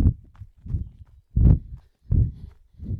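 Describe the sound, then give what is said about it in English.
A person's running footsteps come as dull, low thuds at a steady, moderate pace, several footfalls in a row. “But let's run for now. Off we go.”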